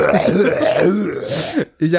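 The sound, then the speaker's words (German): One long, loud, low, gurgling burp rolls on for about a second and a half, then cuts off abruptly before the voice comes back. “jetzt muss ich kurz aufstoßen”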